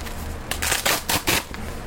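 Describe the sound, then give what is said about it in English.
Velcro ripping as a blood pressure cuff is unwrapped: a few short, rasping tears in quick succession, moderately loud, with no talk. “First of all, I'm going to get the cuff unwrapped. Unvelcro it.”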